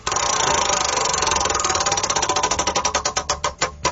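A prize wheel spins with a rapid, loud stream of clicks that gradually slow and spread apart as the wheel loses speed, the last few ticks clearly separated.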